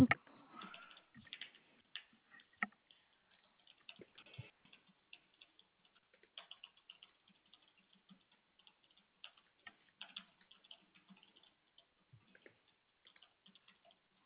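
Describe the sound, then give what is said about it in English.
Notes being typed on a computer keyboard: faint, irregular clicks come in short runs separated by pauses. “Okay, so give me just a moment. Let me type my notes.”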